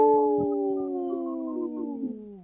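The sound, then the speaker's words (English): A wolf howls in one long, sustained, tonal cry whose pitch slowly falls, fairly loud and alone, with a few faint rustles beneath it. “This portion of the show is supported by Howling for Wolves, protecting wolves for future generations. Howl!”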